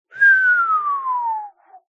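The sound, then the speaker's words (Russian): A man gives a long, drawn-out whistle, a single clear tone sliding slowly down in pitch for about a second and a half, then a brief faint trailing note. “Ван Клифф протяжно свистит.”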